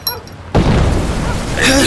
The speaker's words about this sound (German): Was war das? Das hat sich angehört wie eine Explosion. Und was für eine? Das kam von dort drüben, von der anderen Seite des Marktplatzes.